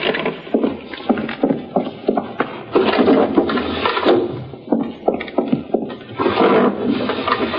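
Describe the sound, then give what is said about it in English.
Windows being shut and locked in a house, heard as a busy run of wooden knocks, clatters and thumps that carries on for the whole stretch with only brief lulls. “There. I've shut and locked all the windows.”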